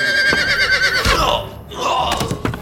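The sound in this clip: Horse whinnying in a stable in Ireland: a loud, quavering high-pitched whinny lasts about a second, followed by lower, rougher breathy sounds and a few short knocks.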